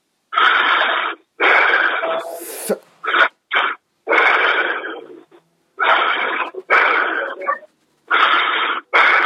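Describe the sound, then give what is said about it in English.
People breathe deeply in and out during a pastor-led prayer session. Many loud, airy, hissing breaths come in bursts of uneven length, separated by short pauses, with no talking. “Just breathe in and out 5 times.”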